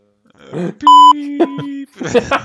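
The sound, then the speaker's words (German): A short, steady electronic beep tone sounds loud and alone between bits of talk. “Piep.”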